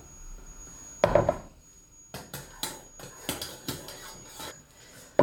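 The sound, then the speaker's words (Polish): Stirring instant semolina into milk produces a loud scraping burst, then many rhythmic rasping strokes at a steady, fairly quick pace, heard alone without talk. “I mieszam teraz, aż do momentu, kiedy poczuję taką konsystencję”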